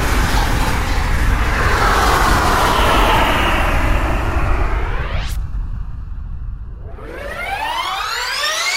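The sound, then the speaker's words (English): A rocket ship launches with a roaring rush and a whistle that climbs sharply in pitch, then a short lull with a thin steady tone, followed by another climbing sweep. “You make rocket go boom now.”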